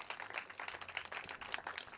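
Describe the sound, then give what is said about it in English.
Faint applause for a musician at a live evening show: a soft, continuous patter of many hands clapping at an even level, with no voices rising above it. “Another round of applause for Mike.”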